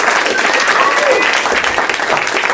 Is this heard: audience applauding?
yes